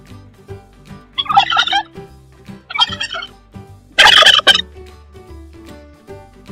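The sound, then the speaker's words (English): A turkey gobbles in three loud, rapid, warbling bursts, with quieter clucks and calls from the bird filling the gaps between them. “Turkey.”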